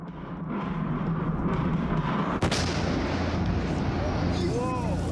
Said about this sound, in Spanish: La artillería pesada bombardea las ciudades y pueblos de Donbass